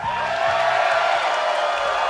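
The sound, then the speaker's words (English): A charged-up audience at a live concert at World Cafe Live in Philadelphia cheers as a dense, steady roar of applause and shouting that stays loud throughout. “We have a charged up crowd today.”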